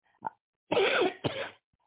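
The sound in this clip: A person coughs in three rough bursts: one brief hack, then two longer, harsher coughs close together, with no talk.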